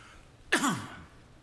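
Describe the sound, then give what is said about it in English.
A single short, harsh cough bursts out against a quiet background, with a brief rasping tail and no talk. “I'm coughing some, looks like.”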